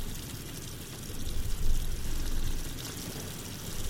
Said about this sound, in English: Should I try the sink? Yeah, go for it. It's working. Maybe it's old. Could be stagnant.